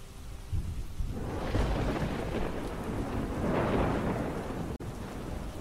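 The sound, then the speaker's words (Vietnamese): Thunder rumbles through heavy rain during a violent storm with a lightning strike. A steady, dense downpour hisses throughout, and deep rolling rumbles swell beneath it, with no voices. “Ngoài trời lúc này cơn mưa lại càng thêm dữ dội. Đột nhiên một tia sét từ trên tầng không giáng thẳng xuống.”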